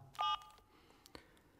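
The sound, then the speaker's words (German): Telephone keypad dialing: one loud, clear dual-tone keypad beep, followed by a few faint clicks in an otherwise quiet stretch. “Ich werde die Polizei anrufen und ankündigen, dass Sie morgen ins Präsidium kommen.”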